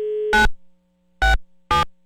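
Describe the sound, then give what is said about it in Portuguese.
Telephone tones as a call is dialed: a short steady electronic tone, then three brief, loud buzzing bursts separated by pauses, with no talk. “peraí que eu vou ligar.”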